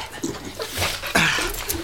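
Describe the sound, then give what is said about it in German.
A dog pants and whimpers after finding its people following a fall from ponies, giving soft breathy huffs and short high whines in a quick, uneven run of sounds. “Oh, ja, braver Hund. Ja, fein.”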